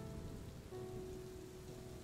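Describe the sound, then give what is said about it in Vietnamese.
Heavy rain pouring down in a continuous, dense hiss with no breaks, even and rather soft in level. “Ôi, mưa như thế này làm sao đi được?”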